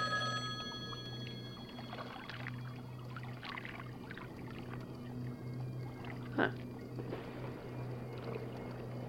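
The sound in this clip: A telephone rings with a bright, tonal bell at the start, then stops, leaving a low steady hum and faint voices.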